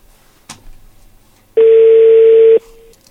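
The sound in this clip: A telephone dial tone sounds as a single steady note for about a second, after a brief click, with the tone fading away at the end.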